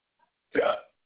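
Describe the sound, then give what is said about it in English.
A single short hiccup from a person on a phone call, a brief voiced gulping burst heard alone. “Oh, damn hiccups.”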